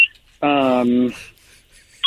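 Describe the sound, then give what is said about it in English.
Little electronic beeps like a vehicle reversing: a longer buzzy tone in the middle steps down in pitch, with brief high beeps at the start and end. “We're hearing little beeps. We're hearing little beep noises, like someone's going in reverse.”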